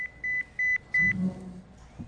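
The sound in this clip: A mobile phone beeps: a few short, high electronic tones in an even rhythm over a faint, steady background tone, then quieter low sounds follow.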